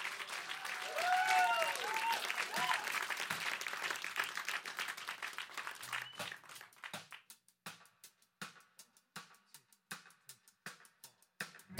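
Studio audience applauds a band at a live lunchtime session. Dense clapping lasts about six seconds, then thins out to scattered single claps.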